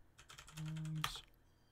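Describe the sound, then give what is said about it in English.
Quick typing on a computer keyboard: a short, even burst of faint key clicks that ends with one sharper keystroke. “Let me just type something in here.”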